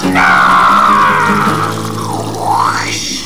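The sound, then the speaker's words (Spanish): A splashing water sound effect marks water thrown into someone's face during an improv comedy scene. It is a continuous, loud rush lasting about three seconds. “lanzó el agua directamente a la cara del presidente y cachifrulo. ¡Más agua! ¡Más agua!”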